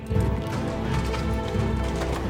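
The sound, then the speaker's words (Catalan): Horse hooves clip-clop in a quick, steady rhythm as a rider heads toward a forest, with many hoofbeats blending into a dense, busy background. “En Bernat cavalca cap al bosc per un llac.”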